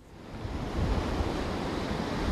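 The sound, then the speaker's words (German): Ocean surf washing onto a beach in Miami early in the morning: a steady, broad rushing roar that grows louder after the first half second and keeps rolling with no voices. “Es ist noch früh am Morgen am Strand von Miami. Ein paar Unerschrockene tauchen in die kalten Wellen”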